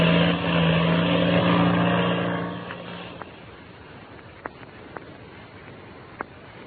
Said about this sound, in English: Two shadowy figures, Patsy Donovan and the Mexican boy Pebbles, listened to the takeoff of the black two-seater. And then, when the sound of the engine had faded into distance